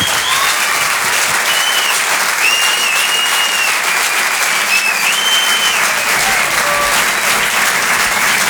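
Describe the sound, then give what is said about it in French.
An audience at a live comedy show in a theatre gives a loud ovation: dense, sustained clapping that stays steady throughout. “Mesdames, messieurs, s'il vous plaît, une ovation pour Anne Roumanoff.”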